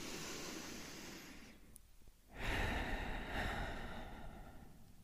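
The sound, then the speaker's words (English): A deep breath is drawn in as a soft, airy inhale, followed after a brief pause by a louder, longer breath out that holds steady to the end. “Taking a deep breath in and a deep breath out.”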